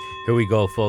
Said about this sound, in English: That is the sound of the bell of round number 5, fight number 6, Pacific Coast Boxing.